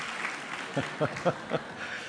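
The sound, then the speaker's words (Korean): Applause from a church service audience welcoming a speaker: a bed of clapping with a few louder bursts of cheering or clapping spaced roughly a quarter second apart, moderately faint overall. “이렇게 환호를 받으면서 나오니까”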